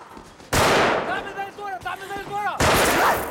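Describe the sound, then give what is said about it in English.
Gunshots are fired from a courtyard at someone hiding behind a pillar: two sharp, loud bangs about two seconds apart, with voices heard between them. “She hides behind a pillar as one shoots at her from the courtyard.”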